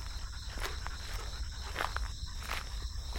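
Footsteps of a person walking, a few soft, evenly spaced steps. They sound over a steady high insect-like drone and a low background rumble, with no talk.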